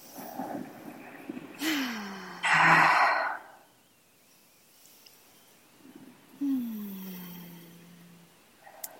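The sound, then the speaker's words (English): Deep breathing, inhaling through the nose and exhaling in a nice sigh: two slow breath cycles, each ending in a voiced sigh that falls in pitch, separated by quiet pauses. “just by taking a couple deep breaths, so just an inhale through the nose, a nice sigh, exhale, a couple more like that.”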